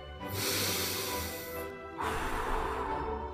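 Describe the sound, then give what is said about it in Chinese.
Two long, airy breaths, with a deep breath drawn in through the nose, each a sustained rush of air separated by a short pause. “现在，稍稍的放松心情，深呼吸，”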